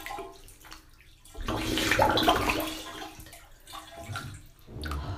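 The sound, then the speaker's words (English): Water sloshing as a person goes fully under and comes back up, a soft surging wash that swells to a peak and fades, followed by smaller, quieter water movements. “Actually, come out a bit, but so go under and completely submerse if you can.”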